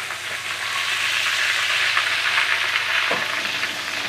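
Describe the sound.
Schnitzel frying in a pan gives a steady, loud sizzle of crackling oil that runs unbroken throughout, with no talking.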